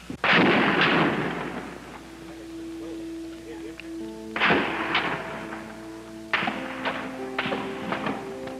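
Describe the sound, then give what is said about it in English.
Gunfire with ricochet bullets striking the top of a building, three loud sharp blasts spaced several seconds apart, each with a long decaying echo, followed by faint tonal ringing and scattered smaller cracks. “Ricochet bullets bouncing off the top of the building.”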